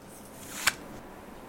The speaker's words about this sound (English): She draws cards one at a time from the pile. They are placed with care